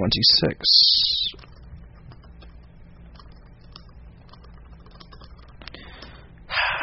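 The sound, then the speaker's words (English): Typing on a computer keyboard, a stream of soft, quick key clicks in an irregular rhythm, with a voice heard at the start and end. “Listening to me type is, as always, I'm sure, incredibly exciting.”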